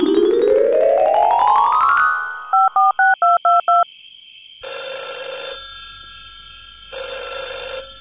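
A telephone call is placed: a rising electronic sweep leads into a quick run of six dual-tone keypad beeps, followed by two long bursts of buzzing ringback tone separated by a pause, loud and with no talk.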